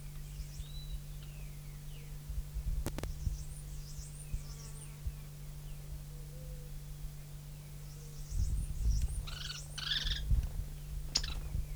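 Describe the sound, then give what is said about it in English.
Faint bird calls come as a few short, high chirps scattered over a low steady hum, with a slightly louder cluster of calls toward the end. “Three birds present.”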